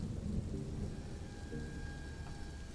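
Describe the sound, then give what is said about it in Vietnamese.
Thunder rumbles low beneath heavy, pouring rain, forming a continuous, faint wash of noise with no sharp claps. “vang lên từng đợt sấm sét, cơn mưa ào ào đổ xuống, không có dấu hiệu báo trước”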